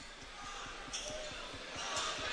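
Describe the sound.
A basketball is bounced by a player before a free throw in a game, with a few dull, regular thuds under a talking voice.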